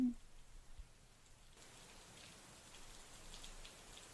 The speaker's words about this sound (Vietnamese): Gió nổi lên, từng đợt xào xạc lẫn trong mưa